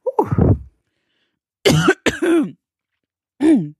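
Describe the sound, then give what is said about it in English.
A person clears their throat and coughs to get something out of it: one long rasping clear, a pause, two harsh bursts close together, then a final short cough. “I was just something in my throat and I had to get it out. So sorry for hacking in your fucking ear.”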